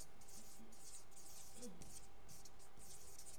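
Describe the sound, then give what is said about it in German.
Handwriting, likely a pen or pencil scratching out words: faint, dry scratchy strokes in several short bursts separated by brief pauses, with a low, steady hum underneath. “ich schreibe mal auf Sklave. Sklave.”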